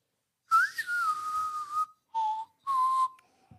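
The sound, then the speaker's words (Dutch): A person whistles a well-known spaghetti-western film theme alone: one long clear phrase that rises then falls, followed by two shorter held notes. “het is wel een heel bekend deuntje wat je aan het fluiten bent, maar geen podcast opnemen.”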